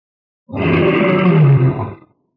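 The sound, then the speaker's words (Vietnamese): A lion roars loudly in one deep, rough, sustained roar lasting about a second and a half. It holds strong throughout, then cuts off cleanly into silence. “Lão sư tử rống to”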